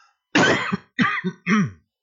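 A person clears a dry throat in three rough, rasping bursts separated by short pauses. The first burst is the longest, and the last is more voiced.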